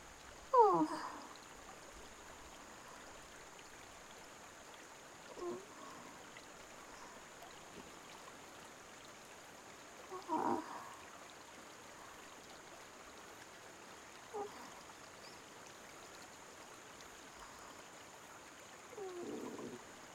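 River water flows in a steady, faint rushing hiss, a soft continuous wash broken by a few brief louder bursts.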